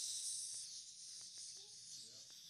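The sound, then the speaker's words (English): A voice imitates hissing snakes with a faint, sustained, airy high hiss, broken by a few brief, soft vocal sounds. “The sounds of snakes in the house.”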